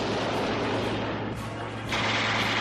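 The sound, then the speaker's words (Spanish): Wartime bombs exploding amid a dense, continuous roar of battle with crackling gunfire-like texture. The din is loud and unbroken, with no separate blasts standing apart. “Este era el sonido, más o menos, de Europa hace 99 años. Claro. Sonido de bombas, de música militar alemana”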